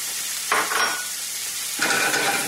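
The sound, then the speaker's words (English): Pancetta sizzles in a little olive oil in a sauté pan, a bright crackling hiss over a steady frying bed that swells in two louder bursts. “I'm going to add just a very small amount of olive oil to the pan, just enough so where I can get some heat transfer on the pancetta. And I'm going to add my pancetta.”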